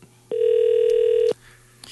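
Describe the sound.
A telephone ringback tone sounds on an outgoing call placed over an ordinary phone line: one steady, buzzing tone lasting about a second, clear and alone, followed by a short quiet gap.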